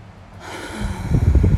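Deep breathing outdoors: a slow, airy inhale that builds steadily in loudness and ends in a rough, snort-like rush of breath, with no talking.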